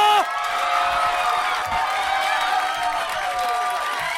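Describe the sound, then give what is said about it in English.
A comedy club audience cheers, whoops and applauds as the host is introduced, a loud, sustained roar of clapping and shouting that carries on evenly throughout. “Originally from Northwest Indiana, make some fucking noise for Marty DeRosa!”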